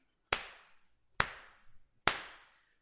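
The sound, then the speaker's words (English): Three sharp hand claps, evenly spaced and each ringing out briefly before the next, alone against silence. “Okay, so I'll clap three times and then we can start.”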